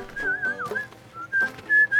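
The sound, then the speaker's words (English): A person whistling a short, bright tune of several clear notes in separate phrases with brief pauses, fairly loud and alone. “What did I tell you about whistling? I whistle when I'm happy.”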